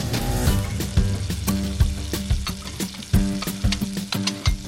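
Food frying in a paleo cook's kitchen in Mainz, a loud continuous sizzle broken by many sharp clicks and scrapes of stirring, with no talking.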